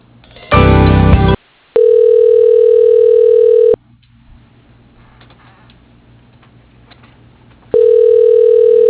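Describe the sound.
Telephone line tone plays while a call is transferred to voicemail: a short loud burst, then a long steady mid-pitched tone, a few seconds of near silence, and the same steady tone returning at the end.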